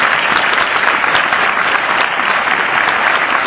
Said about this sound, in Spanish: Los aplausos para el día 23 cuando hayamos terminado.